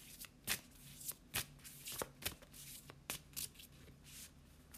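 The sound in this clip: Tarot cards being shuffled by hand make a quiet run of many crisp, papery flicks and slaps at an uneven rhythm, with no talk.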